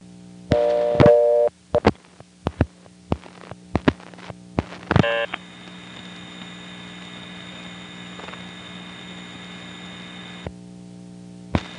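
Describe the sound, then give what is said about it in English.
Telephone reorder tone from Harrisonburg long distance exchange equipment: a few sharp clicks and short tone bursts come first, then a steady electronic tone holds for about five seconds and stops. “There's the reorder from the Harrisonburg Long Distance Equipment.”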